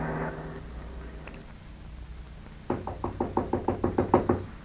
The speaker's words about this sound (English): But when I heard that knock on the door,